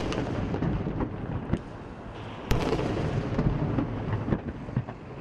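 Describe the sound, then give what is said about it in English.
Cannon booms of a 21-gun salute in Havana, fired for Fidel Castro's memorial, sound as a few sharp bangs over a steady rumbling background. “Memorial services began early Monday after 21 gun salutes sounded simultaneously in the capital and the eastern city of Santiago”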